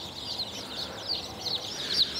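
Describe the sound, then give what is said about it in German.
Chicken chicks peeping as they are set under a heat lamp: many high, thin cheeps overlap continuously at a soft level, with no talk. “So viele Küken habe ich auch noch nicht auf einmal in der Hand gehabt. So, aussteigen. Schön unter die Wärmelampe.”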